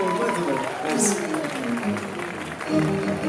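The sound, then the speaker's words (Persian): Audience applause, a dense steady clapping texture, runs the whole way through beneath a voice speaking loudly over it. “ولی قربون دستاتون برم این دست زدن ها میدونید فشار خون رو تنظیم میکنه بالا باشه این همچین میزونش میکنه”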